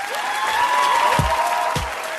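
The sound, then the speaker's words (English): Audience applause at a poetry event: a dense, even wash of many hands clapping that holds steady throughout, with a few soft low thumps underneath and no clear voices. “please give a warm round of applause to Mr. Miguel Algarin.”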